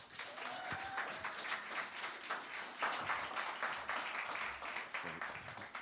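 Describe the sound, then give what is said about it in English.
Audience applause welcoming a speaker, a dense, steady wash of many hands clapping that holds at an even level for about six seconds with no talk. “And so will you put your hands together, join me as we welcome Dr. Alan Petit.”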